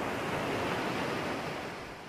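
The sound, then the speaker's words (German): Foam-crested waves break on a golden-brown beach in a steady, dense wash of surf that holds level throughout and eases off slightly near the end, with no voices. “Schaumgekrönte Wellen warfen sich an ihren goldbraunen Strand und hinterließen dort ihr wundersames Schwemmgut”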